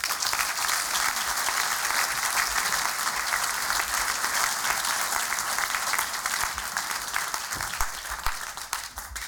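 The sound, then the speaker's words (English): An audience applauds to welcome a speaker, with dense, even clapping sustained throughout that tapers off slightly near the end. “So, folks, put your hands together and in a warm welcome for the Chief Executive Officer of the Director of Brooklands Museum, Alan Wynne.”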